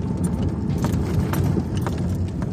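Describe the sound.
A car being driven, with a steady low road rumble throughout and faint light clicks and rattles on top.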